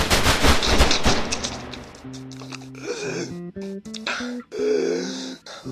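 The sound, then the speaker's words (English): Gunfire in a video game: a dense burst of rapid, crackling shots fills the opening seconds, then gives way to choppy tonal game sounds broken by short gaps. “Is that a Gatling gun? It's just a lion! Ah! You shot me to your fuck! Stop firing! Hold your fire!”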